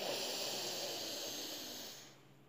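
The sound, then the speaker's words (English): A deep breath drawn in during a guided breathing exercise, heard alone as a steady, airy hiss that holds and then fades toward the end. “And here I invite you to take a deep breath in.”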